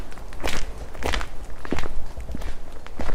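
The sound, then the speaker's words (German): Footsteps of hikers on a path winding through meadows and woodland near Chimay, Belgium. A steady series of crunching steps falls in an even walking rhythm, loud and alone, with no talk. “Wir wandern von Chimay zur Abtei Notre-Dame des Cormont. Erst schlängelt sich der Pfad durch grüne Wiesen, dann durch dichten Laubwald.”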